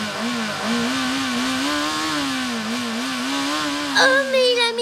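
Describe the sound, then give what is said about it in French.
A motorcycle engine runs with a steady, low throbbing drone whose pitch wavers slightly, staying loud and continuous throughout. “Son moteur.”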